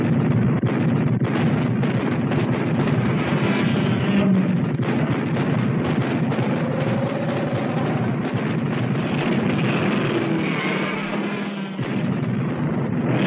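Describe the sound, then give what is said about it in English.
Soldiers fire an artillery and gunfire barrage at a giant creature, producing a dense, loud wall of overlapping booms and sharp cracks that runs without a break through the whole clip. “Fire at will, Lieutenant, and make them count. Everyone, open fire.”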